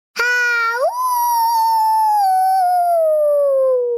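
A wolf howling, voiced by the little wolf character in a children's story: one long, loud howl that rises sharply at the start, then glides slowly downward in pitch for about four seconds, heard alone.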